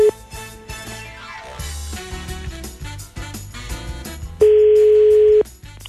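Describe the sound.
A telephone ringing tone of an outgoing call sounds as one steady, loud beep lasting about a second near the end, following a passage of music.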